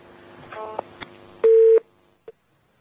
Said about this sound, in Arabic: انقطع الاتصال.